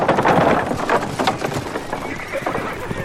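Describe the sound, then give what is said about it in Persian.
Hoofbeats of a horse and rider approaching, a steady, busy run of clopping over dense, rumbling background noise. “یه سوار داره نزدیک میشه.”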